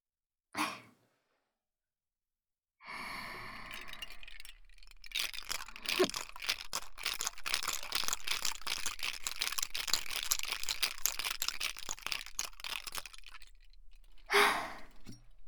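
A cocktail shaker is shaken again before pouring, making a fast, steady, rattling churn that holds an even loudness for about ten seconds. A short sound comes just before it and a brief burst follows.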